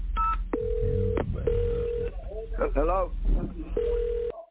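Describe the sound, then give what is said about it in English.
Touch-tone keypad beeps as a telephone number is dialed: a few sustained dual-tone presses with gaps between them, mixed with a voice talking. “I'm going to go ahead and dial a number now.”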